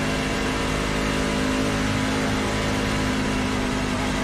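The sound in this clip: A truck engine drones in a racing video game, a constant buzzing hum with a strong steady tone. The pitch holds level throughout and there is no talk.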